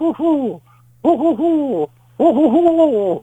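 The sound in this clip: A person imitates a bird's insistent hooting call with three voiced bursts of wavering, rising and falling hoots. The first burst is short, the next two are longer, and a low steady hum runs beneath.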